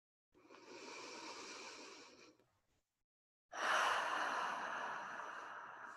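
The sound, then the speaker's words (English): Breathing in through the nose for about two seconds, then after a short pause a longer, louder exhale. The slow, controlled breaths are heard alone with no talking. “And again, in through the nose. And exhaling.”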